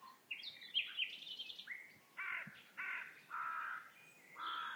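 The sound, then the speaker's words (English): A male nightingale sings alone: a few harsh, buzzy phrases open the song, then several longer rasping notes follow one after another with short gaps. The singing is fairly faint. “that sound you can hear is the unmistakable song of a male nightingale”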